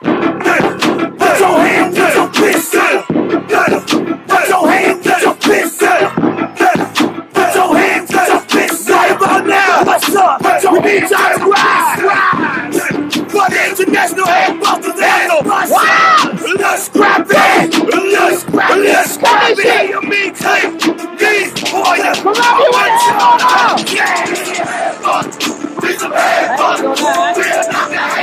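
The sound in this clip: Live audience at a comedy show in Columbia, South Carolina, cheering and yelling for comedian DC Young Fly: a loud, sustained roar of shouts, whoops and yells that holds steady throughout with no break.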